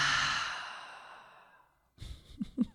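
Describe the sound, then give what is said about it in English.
A full, audible breath during a guided breathing exercise: a long, loud, sighing exhale that gradually fades out over almost two seconds. It is followed by a short silence and then a few softer breathy sounds. “Let's take a full inhale and a full exhale.”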